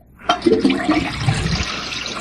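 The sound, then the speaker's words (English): Toilet flushing: after a brief quiet start, a sudden rush of water bursts in and continues as steady gurgling, swirling flow for about two seconds, fairly loud and with no talk. “Hang on, let me flush real quick first.”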